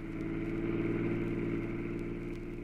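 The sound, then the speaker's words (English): Steady engine drone of a car driving across the desert, a continuous mid-pitched hum with a faint rumble underneath, holding an even level throughout with no voices. “Pat and I were spinning along across the desert toward the Pacific Highway”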